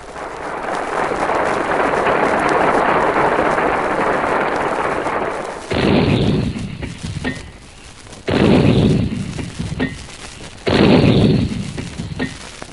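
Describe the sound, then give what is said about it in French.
Three heavy, booming blasts sound like gunfire, serving as the traditional theatre knocks that announce war. A long, sustained roar of noise comes first, then the three evenly spaced booms, each with a sharp onset and a fading tail. “Les trois coups que vous venez d'entendre n'ont plus aucun rapport avec le théâtre. Ou plutôt, ils annoncent un lever de rideau gigantesque sur un autre théâtre, le théâtre du monde, le théâtre de la guerre”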